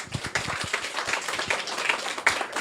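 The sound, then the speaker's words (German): Audience applause, a steady wash of many hands clapping at moderate loudness throughout, with individual sharper claps standing out now and then. “Gut, dann nochmal ganz, ganz großen Applaus an die Jungs.”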